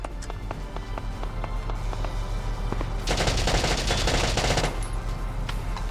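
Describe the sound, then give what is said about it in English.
Machine-gun fire from a video game, with a gun fired at point-blank range at an enemy trooper. Scattered taps come first, then a dense, loud burst of rapid shots lasts about a second and a half before the game noise settles again. “Alright, center mass it. It takes 19 shots to kill him, 20 total, and I am on point blank range. He should hit all of these.”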